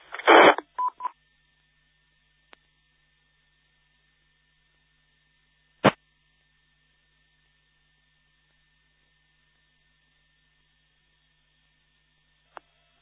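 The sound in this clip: Telephone keypad tones dial into a call: a quick cluster of beeps at the start, then a few isolated sharp clicks over a faint steady hum.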